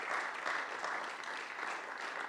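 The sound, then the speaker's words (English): Congregation clapping at a Sunday morning church service: a soft, continuous spread of many hands applauding at a fairly low, even level, with gentle swells but no breaks. “Let's give the Lord a good clap offering here this beautiful Sunday morning.”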